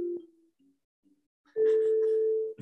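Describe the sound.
A Disney cruise ship's announcement tone on a Panama voyage: a brief low tone, a quiet gap, then a loud, steady, sustained tone lasting about a second before cutting off.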